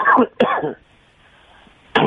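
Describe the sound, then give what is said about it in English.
Coughing from someone with allergies: two short, harsh, voiced bursts in quick succession, then a pause before the start of another. “Oh, cough. No, I have allergies, so it makes me cough.”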